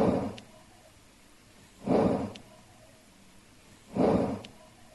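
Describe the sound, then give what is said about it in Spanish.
Slow breathing or snorting captured by a recorder in an empty bedroom: three broad, whooshing breath swells about two seconds apart, faint over a steady background hiss. “La grabadora se puso en el dormitorio del matrimonio y en esta grabadora se captó esta respiración que ahora mismo vais a escuchar.”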